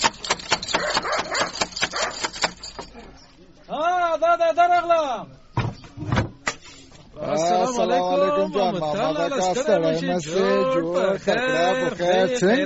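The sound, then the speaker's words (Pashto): Knocking on a wooden door: a rapid burst of many loud raps, a pause, then a few more knocks, with people talking around and after them. “ته ودرېږه چې دا دروازه بیا ور وټکوم”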